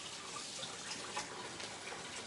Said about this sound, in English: And you literally just wash it off real quickly.